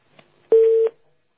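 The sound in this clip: A telephone tone signalling an incoming call: a single short, steady electronic beep at one constant pitch, loud and clean, preceded by a faint click and heard alone.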